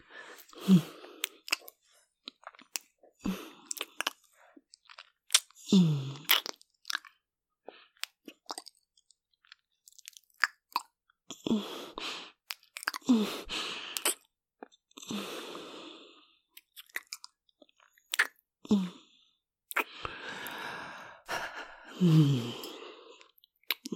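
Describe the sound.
Someone bites and chews while tasting, with wet, crunchy bursts repeating irregularly throughout, broken up by short murmured vocal sounds.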